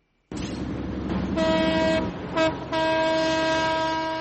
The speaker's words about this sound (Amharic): ባቡር ከድሬዳዋ ጣቢያ ከፍተኛ ድምጽ እያሰማ ይወጣና በንጋት ጨለማ ውስጥ ይሰወራል።